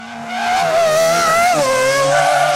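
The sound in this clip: A squealing skid from children racing in new sneakers, heard as a loud, sustained, high-pitched squeal that wavers in pitch and plays alone, with no talk.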